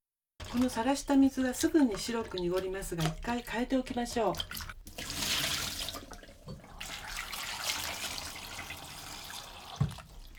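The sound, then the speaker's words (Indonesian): Peeled sweet potato pieces are put into water, making soft splashing and trickling that follows a stretch of talk and continues at a low, even level. “Setelah mengupasnya, langsung masukkan ubi ke dalam air agar tidak berubah warna karena terkena udara.”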